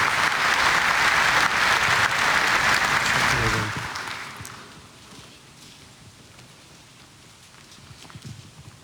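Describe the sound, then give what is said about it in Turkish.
An audience applauds to welcome guests onto a stage at a ceremony. Dense, loud clapping lasts about four seconds, then fades to a much quieter background. “Sayın Ankara İl Başkanımızı kuvvetli alkışlarımızla sahneye davet ediyoruz.”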